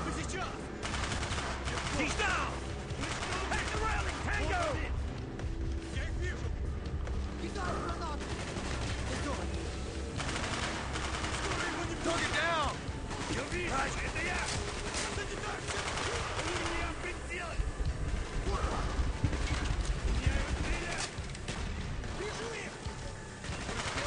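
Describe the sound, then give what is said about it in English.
Video game gunfire in a shooter: dense, continuous volleys of rapid shots and automatic bursts that stay loud and crowded for the whole stretch with hardly a pause. “There's a lot of shooting going on now.”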